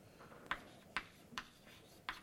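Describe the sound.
Faint writing sounds: four short, crisp taps or strokes at uneven intervals over a quiet background.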